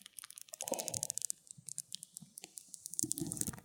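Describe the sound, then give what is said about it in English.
Faint, crackly peeling of the adhesive backing off a mouse pad, many small irregular clicks and ticks in a quick, uneven stream. “Oh, you're going to rip that off? Better than cake. It's the peely at the back.”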